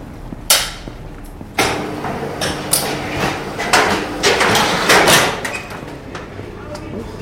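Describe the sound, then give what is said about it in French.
A hunting rifle is unloaded at a gun maker's test range, giving a few sharp metallic clacks and rattles from the action over steady background noise. “Je vais décharger l'arme, je vais éviter de me balader avec une arme chargée.”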